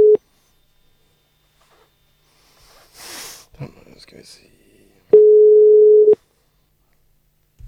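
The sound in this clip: Telephone ringback tone on an outgoing call: a clipped beep at the start, then one full steady single-pitch tone lasting about a second. Soft sniffs and breaths fall in the quiet gap between them.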